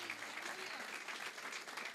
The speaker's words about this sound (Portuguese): Amém? Forte aplauso ao Senhor.